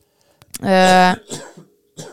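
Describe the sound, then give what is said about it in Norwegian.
A single harsh cough from a person with a lingering cough since the start of the year: one loud, voiced burst followed by a few fainter, breathy throat sounds. “Ja, du har hatt det nå siden 1. januar, tror jeg, ja. Denne hostingen.”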